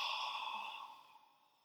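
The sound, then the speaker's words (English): A deep breath let out during a guided breathing exercise: a long, soft, airy exhale that starts fairly strong and gradually fades over under two seconds, with no talking. “Really deep breath in. Hold that breath and let it out.”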